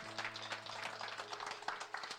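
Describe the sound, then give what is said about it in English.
Church audience applauding after a prayer of commitment, a dense, steady patter of many hands clapping, with a low sustained musical tone running underneath. “Will you just give them a round of applause, man?”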